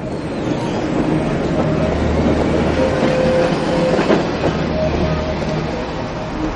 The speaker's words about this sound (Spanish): De día un tranvía recorre una calle.